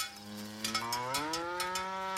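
A grazing cow gives one long, low, steady moo that steps up in pitch partway through and holds to the end.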